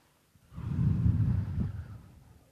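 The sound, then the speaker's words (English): An audience breathes out quickly together in one breathy, low whoosh that builds fast, holds for about a second and then fades away. “Okay, so we can maybe try that again. Would you quickly breathe out?”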